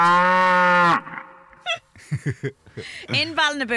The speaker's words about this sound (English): Okay, stop. Stop with the cow mooing effect from YouTube.